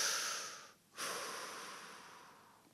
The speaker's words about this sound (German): Einatmen, ausatmen.